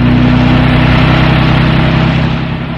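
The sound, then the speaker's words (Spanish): A car accelerates onto an asphalt road with a loud, steady engine roar over a dense low rumble that eases off slightly at the end. “el árabe hunde el acelerador, proyectando el vehículo en la cinta asfáltica.”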